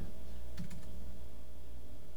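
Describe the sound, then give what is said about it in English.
A few quick keystrokes clatter on a computer keyboard in one short burst, followed by a steady low hum with no talking. “Maybe if you type in LinkedIn. Type him on LinkedIn.”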